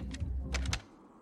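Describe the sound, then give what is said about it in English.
A phone being dialed by hand: a few quick, light clicks of buttons being pressed in an uneven rhythm over a low background rumble. “Then he reaches for the phone and begins dialing.”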